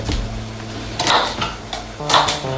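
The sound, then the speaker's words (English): Glasses clink on a kitchen shelf as a woman climbs up to reach them: a few bright knocks and rattles in two clusters, set against a low background hum. “In the kitchen, she climbs up to reach some glasses on the top shelf.”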